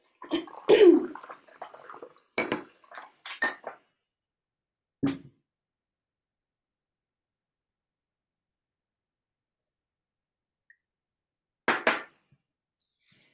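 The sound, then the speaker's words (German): A person with something caught in the throat takes a small sip of a drink: a few brief wet slurps and swallows come in short bursts separated by silence, with a last one after a long pause. “Moment, ich muss mal was, einen kleinen Schluck trinken. Ich habe hier so ein Ding im Hals.”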